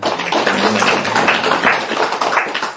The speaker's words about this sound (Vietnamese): giơ tay tôi coi, giơ thẳng coi, cho tràng pháo tay cho